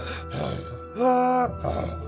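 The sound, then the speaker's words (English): A person imitates mouth breathing with a few slow, raspy breaths, the middle one voiced into a low, groaning rasp. “Mouth breathing sounds like this.”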